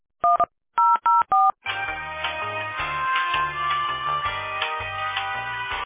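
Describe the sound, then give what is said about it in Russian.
Telephone keypad tones dial an extension on a call to a company's automated line: four short, clear beeps in quick succession, followed by a steady, dense tonal sound that continues to the end. “Если вы знаете внутренний номер сотрудника, наберите его. Или оставайтесь на линии.”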